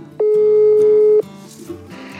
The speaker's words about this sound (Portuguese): Eu Vou ligar do WhatsApp